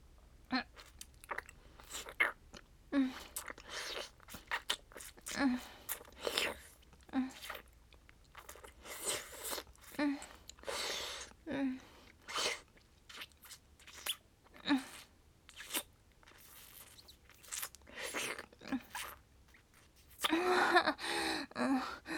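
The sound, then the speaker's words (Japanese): Kissing, with many short, wet smacking bursts coming in an irregular rhythm over about twenty seconds, fairly soft, mixed with breathy gasps and a louder cluster near the end. “お兄さんキスうまいやん。なあ、もっとキスしよう。”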